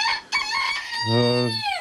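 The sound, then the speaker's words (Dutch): A Twente bantam rooster crows once in a long, loud, strongly tonal call among Twente bantam hens, with shorter bursts of fowl sounds around the crow. “Maar dan gaan deze prachtige hanen en kippen die gaan misschien verloren.”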